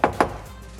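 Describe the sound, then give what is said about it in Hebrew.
Two quick knocks on a door land as short, dull thuds, followed by quiet. “נקישות בדלת, מנדי נכנס. שבע שניות והדלת נפתחה”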